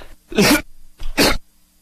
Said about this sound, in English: I hit it twice wrong, and I coughed. Had something in my throat.